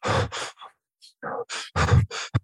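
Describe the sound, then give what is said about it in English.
A person's voice imitates stressed breathing with a quick run of short, harsh breaths, sighing and gasping in and out, separated by brief pauses. “if you're a good actor, how do you breathe? You, if you're surprised, you go, big gasp in. If you're really stressed, you go,”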